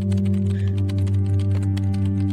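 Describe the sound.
Fingers type an email on a computer keyboard, a quick run of many light clicks over a steady humming tone.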